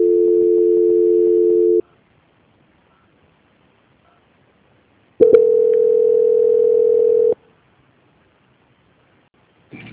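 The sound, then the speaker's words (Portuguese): Telephone tones play while a call is transferred: a steady, droning tone, a stretch of silence, then a second steady tone of similar length, followed by a faint click. “vou transferir o seu contato para o controle de qualidade que dará continuidade em sua contratação. Só um minutinho”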